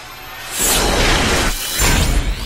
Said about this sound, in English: Missile away, sir.